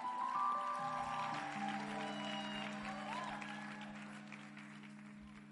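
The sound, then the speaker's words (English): Audience applause welcoming a woman up to share her testimony: steady clapping with sustained music tones underneath, gradually fading in strength. “Please put your hands together for her.”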